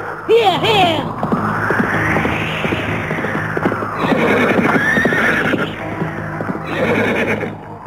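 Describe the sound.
A horse neighs loudly in a high, wavering whinny, followed by galloping hoofbeats and further snorts and neighs over a dense rumbling background.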